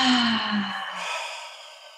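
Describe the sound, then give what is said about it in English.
A single audible sighing exhale during a shoulder-rolling stretch exercise, with a low voiced tone that slowly fades out over about two seconds. “So we're going to inhale our shoulders up. Exhale back and around.”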